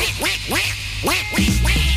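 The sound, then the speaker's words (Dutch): A duck quacks on a farm in a rapid, loud series of nasal, honking calls, each a short downward-bending squawk, repeating steadily across the whole stretch. “De een die kwaakt.”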